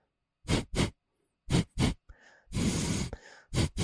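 A person imitates the film studio intro drum beat by exhaling sharply through the nose. Paired breathy bursts come first, then a longer rushing exhale, then another pair, all loud against near silence.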